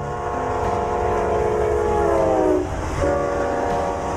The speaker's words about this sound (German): Der Zug. Dieser Zug hat hier noch nie gehalten.